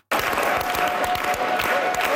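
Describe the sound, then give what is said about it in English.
Crowd applause for Quebec Premier-designate Paul St-Pierre Plamondon at a party gathering with his caucus and candidates, dense steady clapping with some cheering that starts abruptly and holds at an even level. “Scattered clapping turned into a unified chant for Quebec Premier-designate Paul St-Pierre Plamondon.”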